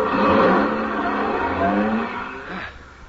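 A car engine drones steadily on a night drive, created as a radio drama sound effect. The motor hums with a smooth, even tone and then fades away near the end.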